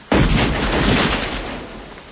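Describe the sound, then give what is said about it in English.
Gunfire: an abrupt, loud blast opens a dense, sustained roar of shots that lasts about two seconds and eases off slightly near the end, with no voices. “You seem to find guns therapeutic.”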